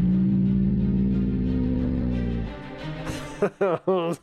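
A sound pitched down a full octave through a mono pitch shifter with the mix fully wet: a deep, droning harmonic tone gives way to three short, growling, beast-like bursts near the end.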